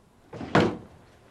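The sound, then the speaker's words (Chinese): A door being shut: a brief soft scrape or swing leads into one solid, thudding close, which then fades quickly, with no voices. “我还关门呢”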